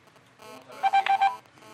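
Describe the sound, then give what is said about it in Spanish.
Telephone keypad tones beep in a quick series of short, clear pulses as a number is dialed for a call, alone against a faint background. “Atienda la llamada, que esto es importantísimo para usted.”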